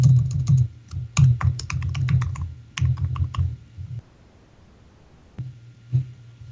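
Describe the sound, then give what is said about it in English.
Typing on a computer keyboard to enter an IP address and an SA password: quick bursts of crisp clicking keystrokes, a brief pause, then a couple of final key taps. “I'll plug in that IP. I'll put in my SA password.”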